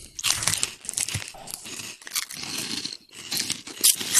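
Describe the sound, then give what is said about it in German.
Jumbo peanut flips crunch between the teeth, with crisp crinkling mixed in. Many irregular, sharp bursts run throughout, separated by brief pauses. “ich bin ja großer Erdnussflips-Fan, allerdings nur die Jumbos. Und deswegen dachte ich, ich probiere die mal, vielleicht ist das ein neues Level.”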